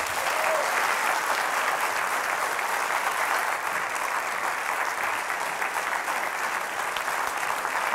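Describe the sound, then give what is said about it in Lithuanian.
An audience applauds to welcome the mascot of Lithuania's national basketball team, a dense, steady wash of clapping that stays loud and even from start to finish with no talk. “Pasitikime plojimais, Juozas Petkevičius!”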